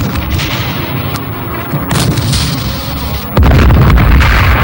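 Firing squad rifle volley: dense, rumbling gunfire noise runs throughout, with a sudden louder burst near the end that stays loud to the close.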